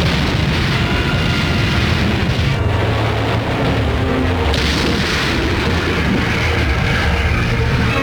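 Artillery bombardment in the Indochina war against the Viet Minh rebels: heavy booms merge into a dense, unbroken rumble that stays loud throughout.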